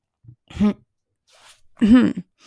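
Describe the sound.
Two voiced throat clears or coughs from a tickle in the throat, each a short, rough burst with a strained vocal tone, separated by about a second of near silence.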